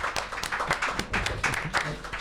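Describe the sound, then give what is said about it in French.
An audience claps for a performer: many quick, irregular hand claps form a steady patter that stays fairly faint and continues for the whole span. “On applaudit, Félix.”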